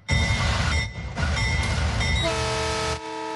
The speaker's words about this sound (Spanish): Y en este momento se percibe la señal que arranca esta gran y emblemática obra, el tren Maya.